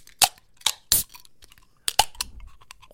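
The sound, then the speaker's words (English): Slurping sips of a drink, heard as several short, sharp wet bursts separated by brief pauses, with no talking over them. “That's the real ASMR right there. Yeah, the slurping.”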